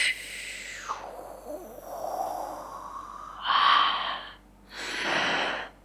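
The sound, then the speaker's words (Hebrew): Deep, drawn-out breaths taken during a guided relaxation and breathing exercise, a few long airy inhalations and exhalations with soft gaps between them, heard alone without talk. “ואתם לוקחים נשימה עמוקה מהשורשים,”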